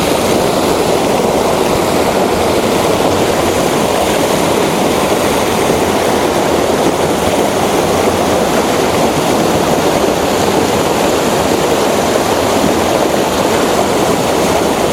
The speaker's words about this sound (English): Well, I'm in the river now. No getting away from it now.